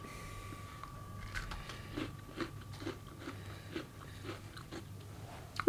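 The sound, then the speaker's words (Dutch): Someone bites into and chews a wasabi-flavored Oreo cookie: many quiet, crisp crunches in an uneven rhythm, with a louder snap at the very end. “Wasabi, Oreo, lekker. Oh, wasabi.”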